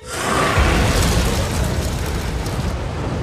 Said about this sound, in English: Bogrod smiles at the dragon. It blasts him with fire.